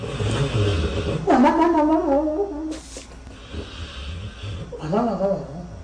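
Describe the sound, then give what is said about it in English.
A dog snoring with two long, rough, wheezy snores that have a nasal, almost human quality and a quieter breathy stretch between them. “That's a dog snoring.”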